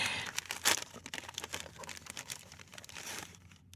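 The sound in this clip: Paper crinkles and tears as a wrapped gift is opened, a busy run of crisp, rustling bursts with one louder crackle near the start, fading to quiet at the end.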